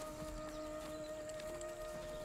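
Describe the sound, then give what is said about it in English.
Faint hoofbeats as two horses are led onto a field, a few soft, irregular clip-clop steps over a quiet background with a steady low tone underneath. “notices a young man in work overalls bringing two horses onto the field”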